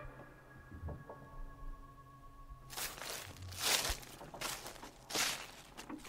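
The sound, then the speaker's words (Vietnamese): Barefoot footsteps crunching through a forest thick with thorns and brush, a series of rough, crackling steps starting after a quiet opening and continuing to the end. “Sau đó, tiếng bước chân lại tiếp tục.”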